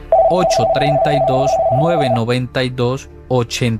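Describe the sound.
A steady, unbroken telephone tone from an incoming call holds for about two seconds beneath a speaking voice, then the talk carries on alone.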